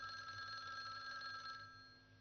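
A telephone rings with a steady electronic tone, faint and continuous, fading slightly toward the end.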